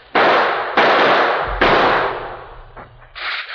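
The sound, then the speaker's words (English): Rifle shots fired from across a canyon ring out as three loud, sharp cracks, each with a long trailing decay, followed by a couple of fainter, shorter reports. “They're apparently hidden among those boulders across the gorge, using rifles.”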